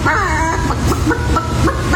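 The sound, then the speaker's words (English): A woman imitates a chicken in a chicken-calling contest at a state fair, giving a quick series of loud, voiced clucking calls with bending pitch over a constant wash of crowd noise. “She actually sounded like a chicken. But it's not just up to the ladies in the chicken calling.”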